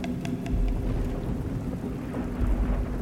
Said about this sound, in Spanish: En la otra estancia, los truenos y relámpagos se sucedieron uno tras otro una vez más.